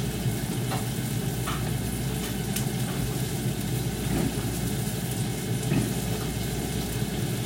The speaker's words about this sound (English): So just using two fresh eggs to my egg ring.